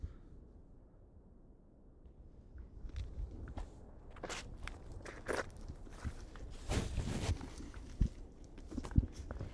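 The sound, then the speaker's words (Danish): Footsteps walk along a marked forest trail, a run of crunchy, irregular steps that starts faint and grows more distinct partway through, with scattered sharper crackles and no talk. “Og nu går vi her på den blå sti på skattekortet.”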